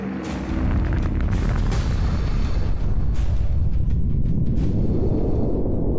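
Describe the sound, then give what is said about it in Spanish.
Atomic bomb explosion over Hiroshima in August 1945. A loud, deep roaring rumble sets in after half a second and keeps going to the end, with crackling bursts layered on top. “la bomba lanzada sobre Hiroshima el 6 de agosto de 1945 borró en un segundo más de 12 kilómetros cuadrados.”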